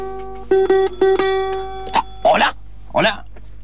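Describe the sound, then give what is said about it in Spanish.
A telephone rings in a central transistor office: a few quick, bright electronic ring bursts, followed by a voice speaking. “En ese momento suena el teléfono de una señora haciendo un reclamo.”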